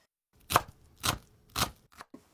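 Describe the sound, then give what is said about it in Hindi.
A knife chops an onion finely into small 3 mm squares. Three firm, evenly spaced strokes are followed by two lighter, quicker taps, all fairly quiet. “सबसे पहले प्याज को महीन काटना है, इसके लिए उसे 3 मिलीमीटर के छोटे छोटे चौकोर टुकड़ों में काट लीजिए।”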